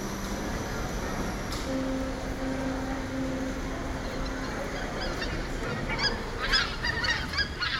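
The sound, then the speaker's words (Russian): Geese honking in a park in Vyborg in early October. Faint calls sit over a steady background hiss, and a few louder honks come near the end. “Кто, услышав такое, не поднимет голову? И хочется думать, что это гуси,”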